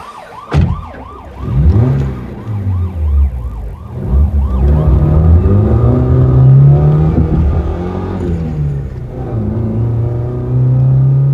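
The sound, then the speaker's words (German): A car accelerating hard with the pedal pressed down while chasing another car on an open road: the engine's rising roar swells steadily, with a loud wailing siren heard over it. “Ich drückte kräftig aufs Pedal.”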